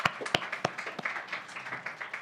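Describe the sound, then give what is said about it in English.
Audience at a Texas Trial Lawyers Association event claps for a speaker: a few sharp, separate claps at first, then light and fairly faint scattered applause that keeps going. “So please give a round of applause to Greta Breaker.”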